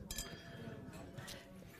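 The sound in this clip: Glasses clinking in a toast aboard a ferry, a few faint, bright clinks, one at the start and another later, set against low background voices.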